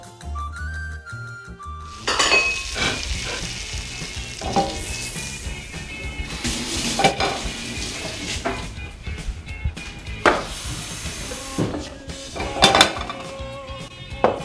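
Food sizzles in a hot pan, starting after a brief quiet moment and then frying steadily, with intermittent stirring, scraping and clinks of utensils against the pan.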